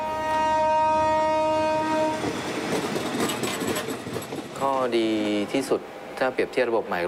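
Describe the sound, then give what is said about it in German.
A train horn sounds as a train passes through a station in Nakhon Chai Si on a modernised line. The horn holds a steady tone for about two seconds, then a rumbling rattle follows, and voices speak near the end. “Er fährt gerade durch Nakhon Chai Si und wenn er raus ist, sieht man ihn da nicht mehr.”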